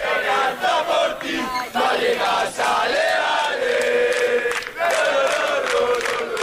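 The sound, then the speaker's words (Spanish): Rayo Vallecano football fans cheering and chanting in Leipzig at the Conference League final, a loud, continuous mass of crowd voices that swells and dips in rhythmic waves, with a brief lull before surging again. “Pero sigue animando la afición del Rayo Vallecano.”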